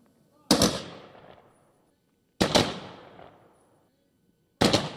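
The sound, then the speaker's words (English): Three rifle volleys from a Coast Guard firing party at a military funeral in a national cemetery. Each is a sharp, loud crack with a long ringing decay, spaced about two seconds apart. “take charge of your firing party and salute the fallen.”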